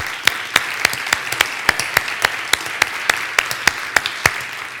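An audience applauds to welcome first-time guests at a spiritual service, with steady, evenly spaced rhythmic claps that carry on throughout at a fairly loud level.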